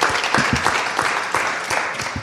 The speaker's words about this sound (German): Oh, das ist erstmal dein Applaus.